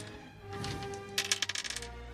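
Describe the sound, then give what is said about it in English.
Dice are dropped onto a table during a tabletop role-playing game, making a quick, faint run of light clicks that bounce and settle within about a second. “Actually, I feel like I didn't roll very well on that second roll. I kind of just dropped it.”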